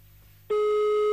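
A telephone busy tone after a call is cut off: near-silence, then a loud, steady single-pitched tone begins abruptly and holds to the end.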